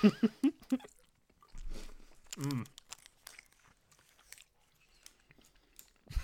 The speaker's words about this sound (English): Just smacking sounds.